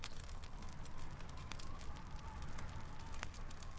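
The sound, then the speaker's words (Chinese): Wood fire crackling: a faint, steady hiss of burning with a scatter of small, sharp pops and snaps throughout. “说起来，我很喜欢听木头燃烧的声音，噼里啪啦的，听着还让人安心呢。”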